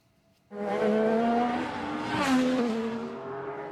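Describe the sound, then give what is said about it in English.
Loud IndyCar race car engines roar on a street circuit near Washington's National Mall, bursting in abruptly after a moment of quiet and holding a steady, high whining drone with shifting pitch and a brief surge midway. “An IndyCar race has kicked off in the U.S. Capitol.”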